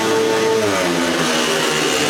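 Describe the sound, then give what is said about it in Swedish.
Loud, continuous engine drone from speedway motorcycles racing in a heat, a dense, steady roar with a whining harmonic tone that slides slightly in pitch. “Nu är det andra hemmaförare som kör och så bra att det är dubbelt Västervik just nu i det här hitet.”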